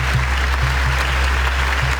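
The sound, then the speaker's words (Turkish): Applause from an audience at a film festival premiere of a documentary in Venice: a steady, dense wash of clapping that holds at an even level throughout, over a low steady hum. “Alkış sesleri 25 dakika boyunca susmadı.”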